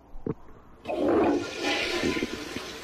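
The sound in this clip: Toilet flush in an aeroplane lavatory: a sudden loud rushing whoosh breaks in after a short quiet stretch with a couple of faint knocks, then eases into a steady draining hiss that lasts to the end.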